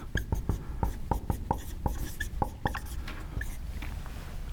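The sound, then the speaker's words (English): Chalk or marker strokes on a board as a left-handed person writes, making many quick, faint taps and scratches in an uneven rhythm. “That's how lefties write on a board.”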